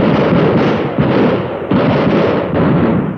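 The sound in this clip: Gunshots in a dramatized Western-style shootout between an outlaw and a policeman: a few heavy, booming blasts whose long rumbling tails run into one another, loud and nearly continuous.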